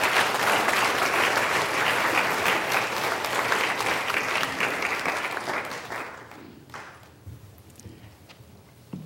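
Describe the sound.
Church audience applauding to welcome a speaker: dense, sustained clapping at full strength for about six seconds, then thinning out and dying away to scattered claps.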